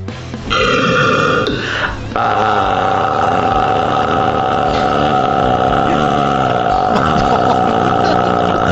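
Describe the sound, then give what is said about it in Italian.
A long, deliberately drawn-out, low-intensity burp, deep and rumbling with a wavering, modulated pitch, held alone and unbroken for about eight seconds. “Poi c'è il rutto lungo, che è un rutto piano, bello, cioè di bassa intensità, però deve essere lungo, deve essere modulato, tipo.”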